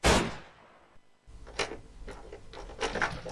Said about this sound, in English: Draws out his pistol. And levels it at the figure. Henry, if I don't hit it, I will consent to forfeit my head.